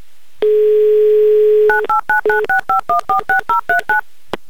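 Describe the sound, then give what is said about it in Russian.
A steady telephone dial tone hums for about a second, then breaks into a quick, evenly spaced run of many short two-pitch DTMF beeps as a phone number is dialed. “Все, я набираю ваш номер.”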